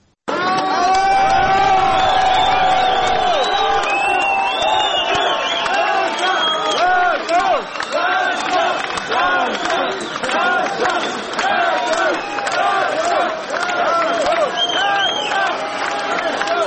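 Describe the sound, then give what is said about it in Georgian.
Supporters greeting Georgian Olympic athletes at Tbilisi airport with ovations and noise, a loud, continuous mass of cheering, shouting and whooping voices with no pause from start to finish. “თბილისის აეროპორტში ქართველ ოლიმპიელებს გულშემატკივრები ოვაციებით და ხმაურით დახვდნენ.”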